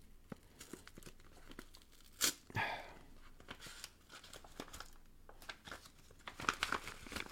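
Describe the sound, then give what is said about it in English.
Someone rips open a package with crinkling, tearing packaging: a run of quiet, irregular rustles and crackles with a few sharper rips, and no voices. “We're going to open this up. I have no idea what's in here. Hopefully I'm not ripping through it.”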